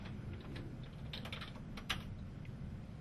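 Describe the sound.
Computer keyboard typing as code is written in a programming editor, a steady run of quick, light key clicks with a few louder taps, over a low background hum.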